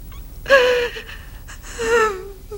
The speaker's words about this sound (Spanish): No llores. Por favor, no llores.